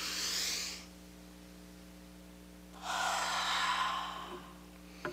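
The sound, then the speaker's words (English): A church choir breathes out together, two long, soft, airy exhales separated by a quiet pause, with a faint steady hum underneath. “So I think we should breathe again to remind us about the Holy Spirit. Can you guys do that with me, choir?”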